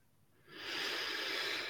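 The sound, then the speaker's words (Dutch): A slow, deep breath taken during a guided meditation: a soft, airy hiss that swells in after a quiet start and then holds steady and full. “En adem diep in en uit.”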